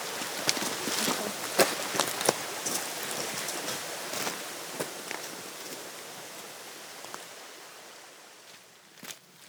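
Footsteps crunch steadily up an outdoor track on the Cumbria Way, many quiet, evenly paced steps over a soft hiss of outdoor ambience that slowly fades near the end.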